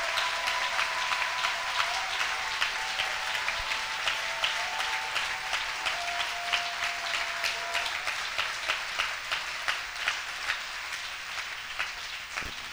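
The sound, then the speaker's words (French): A church audience applauds the Lord during a service. Many hands clap together in a steady rhythmic beat above a continuous wash of applause that lasts the whole stretch. “Acclamons quand vous aurez vraiment acclamé le Seigneur. Let's clap for the Lord.”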